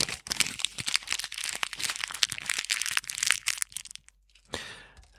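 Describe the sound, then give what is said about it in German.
Crinkling plastic packaging being unwrapped from individually wrapped items: loud, dense crackling and crunching with many sharp snaps, then a brief pause and a final softer rustle. “so krass eingepackt. Und vielleicht wissen es einige schon. Es ist auch von der Verpackung.”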